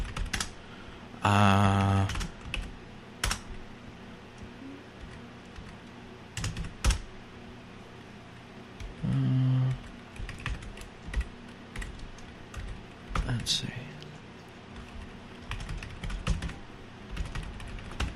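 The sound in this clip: Computer keyboard keys are tapped while card payment details are entered, a steady, irregular patter of quiet keystrokes with a few louder thumps and no talking.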